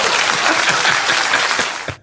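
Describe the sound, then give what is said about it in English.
Applause from attendees at an event, a loud, dense patter of many hands that stays steady, then thins and stops abruptly just before the end. “And that's when they apparently applauded.”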